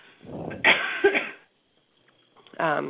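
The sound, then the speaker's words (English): A person coughs and chokes, giving a couple of harsh, loud coughs in quick succession. A short pause follows, then a brief voiced sound. “excuse me as I choke on myself”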